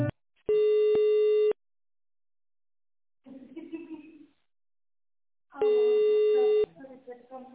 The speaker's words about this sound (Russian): Так, секунду, не кладите трубочку, я вас переключу.